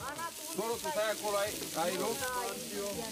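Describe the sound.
Mici, the Romanian barbecue dish of grilled meat rolls, sizzling on a griddle, a soft, continuous hiss beneath a person talking.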